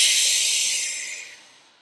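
A slow, deep breath taken during a guided relaxation exercise. It comes as one steady, airy hiss that gradually fades away, with no talking.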